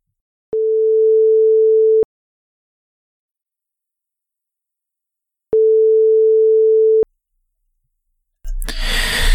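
A telephone ringback tone sounds while a call is placed: two long, steady, mid-pitched tones of about a second and a half each, separated by silence, then a burst of noise at the end.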